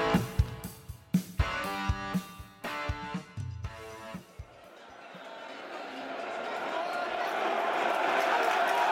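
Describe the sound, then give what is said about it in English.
Football crowd roar at a stadium as Norwich City and the opposing team enter, building steadily louder and denser after a few seconds of loud, irregular thumps and tonal sounds at the start. “As you can hear, the two teams are entering the den this afternoon.”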